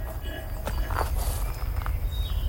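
Slow footsteps walk along rows of graves in a cemetery, a few soft, spaced steps over a faint low background.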